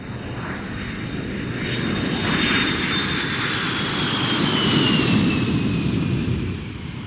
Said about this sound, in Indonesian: bungkukkan badan dan julurkan kaki kanan ke belakang sambil menirukan suara pesawat terbang.